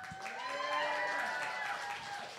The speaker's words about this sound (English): All right, give it up for Jeanette one time.